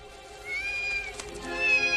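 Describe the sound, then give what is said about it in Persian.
A cat meowing as it is pulled from a large bag gives two drawn-out, high, wavering meows, fairly soft and close together, with nothing else prominent. “مفتش دست در یک کیسه بزرگ کرده و گربه را بیرون می آورد.”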